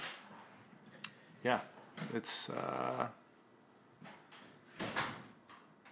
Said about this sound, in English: And now he's locking all the doors in the house. And, every door.